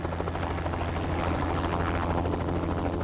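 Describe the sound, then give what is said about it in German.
A helicopter in flight gives off a loud, continuous rotor and engine roar with a dense low thumping that stays level from start to finish, with no voices. “Inspektor Gruber mit dem Helikopter auf dem Weg nach Bregenz”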